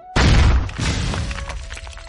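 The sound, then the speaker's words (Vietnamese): Explosions from attacks in a fantasy battle go off one after another. A sudden heavy blast with crashing, shattering noise is followed by further rumbling impacts that stay loud and slowly trail off. “Tiếng nổ liên tiếp truyền đến”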